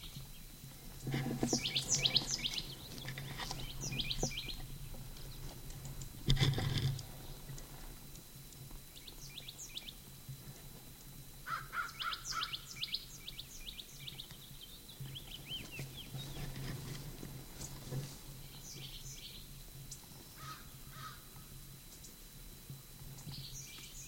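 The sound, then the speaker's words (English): Bird calls ring out in an upper gulch as bursts of high chirps and trills that come and go over about 24 seconds, above a steady faint background hiss, with quieter stretches between calls. “Upper Gulch bird.”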